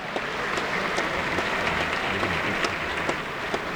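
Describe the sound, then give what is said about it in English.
Continuous applause from a crowd standing to honor a family arriving at a public ceremony: dense, steady clapping with a few sharper claps that stand out, and no clear speech. “As all these people are standing and applauding,”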